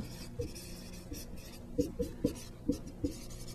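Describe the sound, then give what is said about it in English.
Writing on a board during a math lecture: quiet, scratchy strokes and small taps in an irregular rhythm. The clustered marks grow more frequent toward the end, with no talk. “Hopefully I have enough room to write this.”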